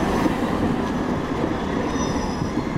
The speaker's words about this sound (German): An der Bremer Domsheide, dem zentralen Umsteigeknoten in der Innenstadt, fahren im Minutentakt Bahnen ein und aus.